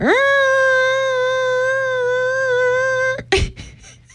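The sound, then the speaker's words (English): A malfunctioning toilet in a radio station bathroom screams with a steady, loud, high-pitched whine rich in harmonics for about three seconds, then cuts off abruptly into a brief clunk and rattle. “Cortland, is that the sound of the toilet on our floor? Yes! So for the past 2 days, the toilet in the bathroom on our floor at the radio station has been screaming.”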